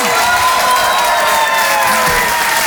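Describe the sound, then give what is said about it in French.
Applause and cheering from an audience giving an ovation at an evening stage show, a dense, steady wash of clapping mixed with shouts and whoops that holds at full strength throughout. “Je vous demande de l'encourager très chaleureusement, de faire une ovation, s'il vous plaît, à Karine Dubernet.”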